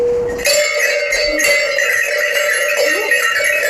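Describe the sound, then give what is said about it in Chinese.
A small brass gong of the kind used by horse caravans is struck once. It rings out as a bright metallic tone with shimmering overtones that sustains steadily to the end. “麻宁是一个名词，是一样马帮用的一面小锣，我把小锣拿来叫你看一下，这就麻锣。”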